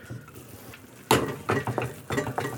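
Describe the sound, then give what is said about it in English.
Stirring flour into a stick of melted butter and a cup of water in a pot: a few scraping, clinking strokes of a utensil against the pot, starting after a quieter moment and coming in short, uneven bursts. “My butter is well melted, and I'm just going to dump my flour in and stir.”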